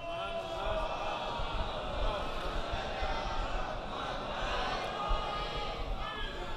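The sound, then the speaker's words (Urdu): A crowd chants a religious slogan together, a blended wash of many voices that stays steady and fairly faint throughout, with no single voice standing out. “نہیں یہ نعرہ کمزور ہو گیا کچھ”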